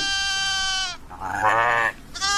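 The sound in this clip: Sheep bleating: loud, nasal, wavering cries. Two full bleats come in quick succession, and a third begins just as the sound ends.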